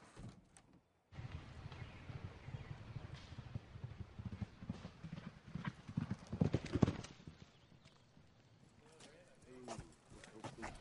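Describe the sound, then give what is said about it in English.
Racehorse hooves galloping during a track workout, a run of many quick, loud hoofbeats in a driving rhythm that eases off toward the end, with a voice briefly heard near the close. “The best thing to do is get him down there and let him gallop a little.”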